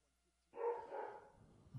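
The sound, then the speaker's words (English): A dog goes off barking in a short, fairly faint run of rough barks lasting just over a second after a quiet start. “Sorry, dog's going off.”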